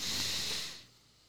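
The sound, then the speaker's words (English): A single deep breath drawn in through the nose, an airy, hissing sniff. It is strong for about half a second and then tapers off quietly. “everybody just take a deep breath through your nose.”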